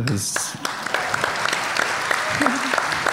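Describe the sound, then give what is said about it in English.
An audience applauds for a ten-year-old child in a courtroom-style setting: dense, steady clapping that fills about three seconds at moderate loudness, with an occasional voice faintly mixed in. “I don't know why we're applauding a human being for aging at a regular rate.”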